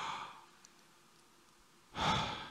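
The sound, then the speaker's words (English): A deep breath drawn in, heard as a soft airy rush at the start that fades, then a louder, fuller breath near the end, with near silence between. “Take a deep breath right now. Breathe in.”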